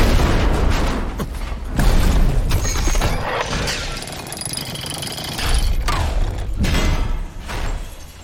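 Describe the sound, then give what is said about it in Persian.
Detonator charges blast on a door, a loud, rough roar of booming bursts with a few stronger surges over continuous crackling rumble, and no voices. “اون دیگه چیه؟ چند تا چاشنی روی در رو کار گذاشتم.”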